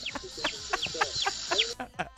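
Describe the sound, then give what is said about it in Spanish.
A person imitating a chick's cheeping with a quick series of high, thin peeps, each sliding sharply downward in pitch, repeated many times in an uneven rhythm with brief gaps between. “Te sale idéntico, ¿eh? O sea, sí le hace igualito a un pollito.”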